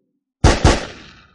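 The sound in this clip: Two loud gunshots from two shooters firing together, landing in rapid succession as a pair of sharp blasts, then a ringing tail that fades over most of a second.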